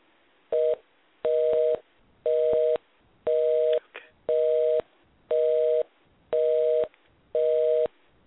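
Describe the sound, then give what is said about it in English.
A telephone line tone sounds while a caller is being dialed back in. There are eight evenly spaced steady two-tone beeps, the first shorter than the rest, with a brief click between the fourth and fifth. “So hang up, and I'm going to dial you back in, okay?”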